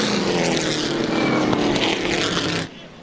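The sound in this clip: Race cars racing out of turn four, a loud, continuous, roaring engine drone that drops away abruptly near the end.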